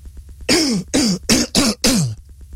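Someone clears their throat in five loud, harsh bursts in quick succession. Each rasping rasp ends in a gruff voiced grunt that drops in pitch.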